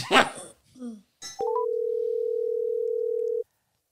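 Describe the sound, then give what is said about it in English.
An outgoing telephone call begins after a brief voice and breath: a few short beeps step upward in pitch, then one long, steady mid-pitched tone sounds before cutting off into silence. “If they don't answer, I'm going to keep calling. Eventually it'll happen. Eventually someone will answer.”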